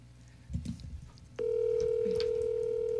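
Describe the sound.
A phone call is placed: some faint handling clatter is followed by a steady, mid-pitched telephone tone that starts abruptly and holds unbroken to the end.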